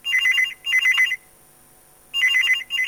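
A telephone rings with an electronic trilling tone in repeated bursts, each ring pairing two short warbling pulses, with a pause before the next ring begins.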